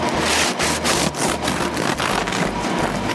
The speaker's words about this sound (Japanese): 完成した食パンを切っていきます。